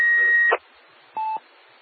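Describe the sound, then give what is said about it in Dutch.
Two electronic beeps on an amateur radio transmission: a higher tone lasting about half a second, then a pause, then a shorter, lower beep, over a faint steady hiss. “Met een dikke piep erbij, ga je gang nog. Ah, nou is de piep weg, hè.”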